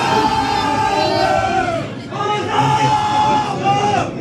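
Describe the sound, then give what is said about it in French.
Football supporters cheer in a packed bar, a dense and loud roar of many shouting voices that holds almost steady, with a brief dip near the middle before the din swells again. “Là aussi, le bar est archi plein, mais j'arrive à me faufiler et me trouver une place près de l'entrée. Les supporters sont à fond.”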